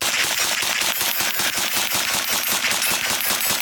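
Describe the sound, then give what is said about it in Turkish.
Rapid automatic gunfire from a domestically made light machine gun built for police use and firing 9x19 mm rounds. Loud, dense, evenly spaced shots run through the whole stretch, with no voices. “Yerli savunma sanayinin geliştirdiği hafif makineli silah sahip olduğu teknik özelliklerle öne”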